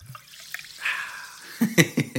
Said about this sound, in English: I'll just take a sip of water. A little seltzer water.